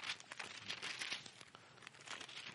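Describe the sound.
Thin pages of a Bible being flipped to Luke chapter 10 make a faint, continuous crinkly rustling with quick papery flicks.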